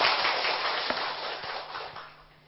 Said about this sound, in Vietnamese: Xin đại chúng cho một tràng pháo tay thật lớn để cung nghinh đại đức.